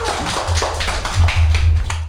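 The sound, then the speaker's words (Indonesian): Children applauding a classmate during a class activity: many quick claps blur into a steady burst of applause that holds an even loudness for about two seconds, with no voices over it. “Oke, tepuk tangan untuk Vincent.”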